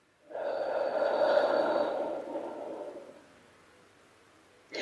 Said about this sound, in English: Again, with a deep breath in. And a deep breath out.